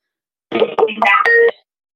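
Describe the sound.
An incoming call rings in as a brief, bright electronic tone sequence of a few stepped notes lasting about a second, standing alone between silences.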